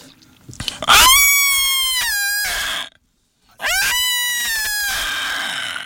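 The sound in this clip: Cat meowing: two long, loud, strained wails separated by a short silence. Each starts abruptly and holds a steady, harsh pitch before trailing off.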